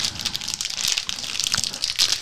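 Crinkly, crackling tearing of a plastic bag of Gouda cheese snacks being pulled open: many quick, bright rustling bursts in an uneven rhythm, fairly loud and with no talk over it.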